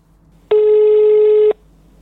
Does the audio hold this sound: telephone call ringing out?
yes

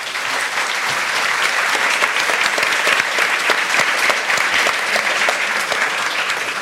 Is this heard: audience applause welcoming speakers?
yes

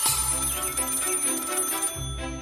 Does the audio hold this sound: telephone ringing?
yes

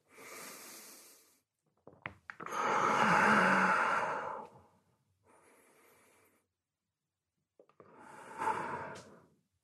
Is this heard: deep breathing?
yes

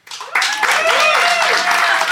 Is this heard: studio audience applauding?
yes

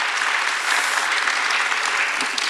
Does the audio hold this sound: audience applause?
yes

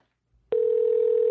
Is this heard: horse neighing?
no

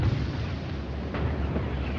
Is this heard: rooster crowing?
no

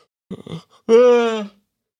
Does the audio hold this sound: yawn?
yes

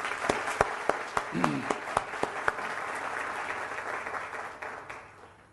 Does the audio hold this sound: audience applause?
yes

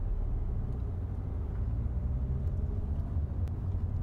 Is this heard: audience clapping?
no

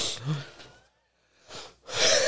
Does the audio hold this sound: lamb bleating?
no

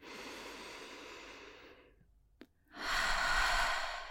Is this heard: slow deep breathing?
yes

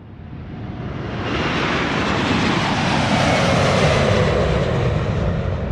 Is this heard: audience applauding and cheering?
no

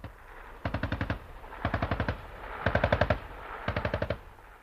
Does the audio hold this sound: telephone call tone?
no

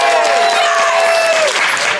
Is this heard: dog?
no

